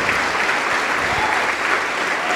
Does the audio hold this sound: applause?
yes